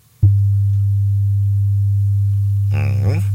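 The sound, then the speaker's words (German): A pure 100-hertz tone, said to prevent travel sickness, starts abruptly as a low, steady hum and holds constant at even loudness, with a voice briefly talking over it near the end. “Und da haben wir für euch schon mal kürzlich diesen einen Ton erwähnt, ja, den japanische Forscher entdeckt haben. Der hat so eine spezielle Frequenz, exakt 100 Hertz, und der hört sich so an.”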